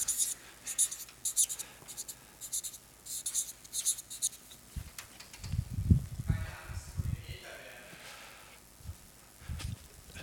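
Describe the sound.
Scratchy pen strokes of someone handwriting the German word Familie, a series of short rhythmic scratches at first, followed by a voice speaking quietly in the second half.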